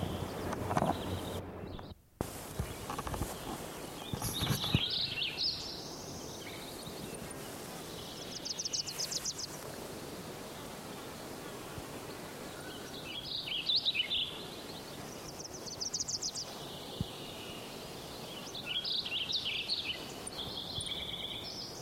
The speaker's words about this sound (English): One, Wilson's warbler,